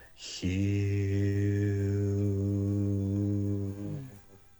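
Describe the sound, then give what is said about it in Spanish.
A voice chants the word HU as one long, sustained, low sung tone, steady and rich in overtones, held for about four seconds before it fades out. “Se llama el canto de Hue. La palabra Hue se escribe Hu, se pronuncia Jiu, suena así.”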